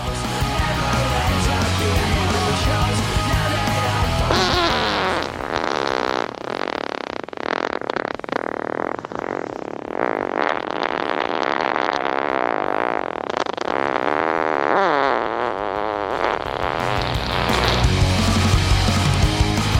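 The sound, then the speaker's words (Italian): Real human farts sent in by listeners, played as a dense, continuous string of many loud, raspy flatulent blasts of varying length, with no talk over them. “Sono flatulenze vere che sono prodotte da persone che me l'hanno mandate quando abbiamo introdotto questo argomento nella prima puntata.”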